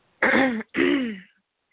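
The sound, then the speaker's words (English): A person clears their throat in two loud, rough bursts separated by a brief gap, heard alone with no other sound. “Excuse me if I cough or, you know, clear my throat.”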